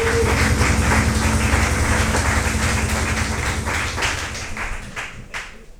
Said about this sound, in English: Let's keep that applause going.